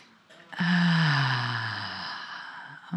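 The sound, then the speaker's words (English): A deep breath, drawn in through the nose and let out through the mouth: a faint, short intake followed by a long, audible voiced sigh whose tone sinks slightly as it fades over about two seconds. “And again, big breath in through the nose, out through the mouth.”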